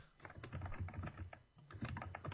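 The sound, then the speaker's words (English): Typing on a computer keyboard: a rapid, uneven run of many light key clicks, with one brief lull midway before the tapping picks up again. “Mr. Typing. We're picking all that up. Yeah, don't fucking type on the computer.”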